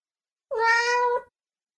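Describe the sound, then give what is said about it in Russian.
A thin, dark wild cat standing in bushes at night gives a single hoarse meow, a rough, drawn-out cry of under a second, alone against silence. “Также хрипло повторил кот.”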